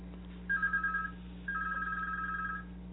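Telephone ringing for an incoming call: two faint electronic trilling ring bursts, the second longer than the first, over a steady low hum.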